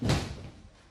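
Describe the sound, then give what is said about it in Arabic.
A door slams shut with one heavy, low thud at the very start, its boomy resonance trailing off over the following second. “أغلق الباب.”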